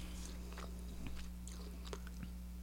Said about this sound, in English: I love chewing hard on my gum. Me too. We know. I love smacking on the shit.